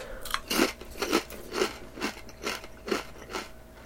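Potato chips being bitten and chewed in a steady series of crisp, crackly crunches with short pauses between them, fairly quiet and with no voice.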